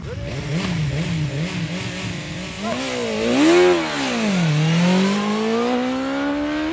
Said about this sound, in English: It's a shame I can't show you this, but I can tell you what's happening, and you can obviously hear it behind me. Basically, there's a series of drag races where this e-roadster prototype is being ridden by each of the journalists here.